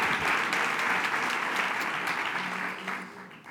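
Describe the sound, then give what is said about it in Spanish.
Applause at a Partido Popular political gathering, given in condolence and memory of a woman who died. Dense, steady clapping from many hands, loud at first and fading gradually toward the end. “Y yo quiero que tengamos este aplauso de pésame, pero sobre todo de recuerdo imborrable de una gran mujer.”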